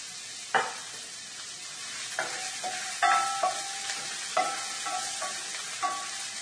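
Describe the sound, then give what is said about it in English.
White onion sizzling in pure olive oil in a preheated pan, a steady hiss broken by several sharp clacks as the onion is stirred, with no talk. “I'm going to add just a little bit of pure olive oil to the pan. Let that heat up. Add some of our white onion.”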